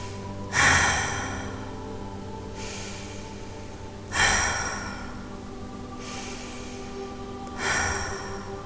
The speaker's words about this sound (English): So to close this practice, we'll take some deep cleansing breaths.